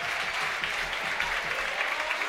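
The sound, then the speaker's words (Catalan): Football crowd in a stadium applauding a player leaving the pitch during a double substitution; steady, dense clapping held at a fairly low level with no break. “Anem a veure com rap l'afició Florin Andone. Doble canvi. Se'n va també Raúl Caballero. Aplaudiments per Florin Andone.”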